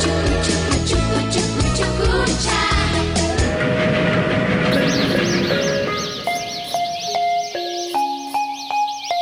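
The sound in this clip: A train sound effect of rolling wagons with rhythmic clickety-clack, dense and loud, blends with tonal sounds that give way to bright stepped chiming tones in the second half.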